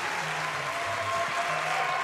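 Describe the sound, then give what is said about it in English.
A live audience applauding, dense and steady clapping that stays at an even level for the whole short clip, with no speech over it. “They didn't think you would be here. That's why they cheered so loud.”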